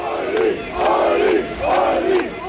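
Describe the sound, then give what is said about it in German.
Fans chant and cheer for the AfD lead candidate at a Magdeburg election rally, their loud crowd voices rising in three rhythmic swells. “Jubel seiner Fans für Ulrich Siegmund, den Spitzenkandidaten der AfD, die um eine absolute Mehrheit kämpft.”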